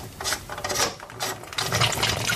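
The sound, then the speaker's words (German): A threaded upper part of a fitting with a seal is unscrewed on its final turn, giving gritty metallic grinding and rasping in several uneven bursts at moderate loudness. “Noch eine Drehung, dann kann man es rausschrauben.”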